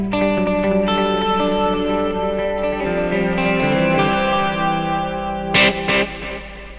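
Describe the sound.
A clean electric guitar plays through reverb and delay effects, ringing out sustained chords and notes that smear into shimmering echo tails, fairly loud and alone, with a brighter, sharper stroke near the end.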